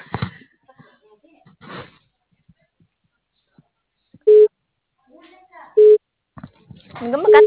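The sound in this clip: Telephone busy signal: three short, steady mid-pitched beeps at even intervals, with fragments of a recorded voice announcement between and around them.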